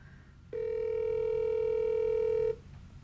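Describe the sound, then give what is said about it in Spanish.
A telephone dial tone follows a dropped call: one steady, unbroken tone lasting about two seconds starts abruptly and cuts off cleanly, with only faint background hiss before and after. “¿Por qué se va, hombre? ¿Por qué se corta la llamada?”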